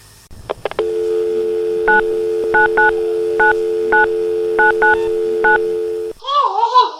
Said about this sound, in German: Was meinst du, was ich gerade tue? Hey, ich telefoniere doch gerade. Kannst du nicht telefonieren, wenn ich telefoniere?